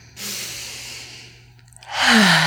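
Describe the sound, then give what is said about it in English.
Deep breath taken: a long, airy intake lasting about a second, a brief lull, then a stronger breathy rush near the end, over a steady low hum. “Well, and again, those deep breaths. Let's take one now.”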